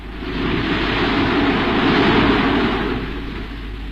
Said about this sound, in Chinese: 云在飞驰，风在怒吼，大海掀起凶恶的浪涛。